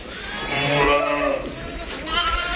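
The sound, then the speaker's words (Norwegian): Lambs bleating on a sheep farm during the busy lambing weeks, with a drawn-out, wavering bleat in the middle and further bleats over steady background noise. “Det har kommet ca. 80 lam her nå I par tre veldig travle uker.”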